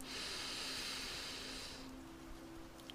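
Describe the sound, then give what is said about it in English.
A deep breath exhaled through the mouth during a guided meditation: a steady, breathy hiss holds for about two seconds, then drops to a softer, airy tail over a faint constant hum, with no voices. “and let it out through your mouth. Again, deep breath in”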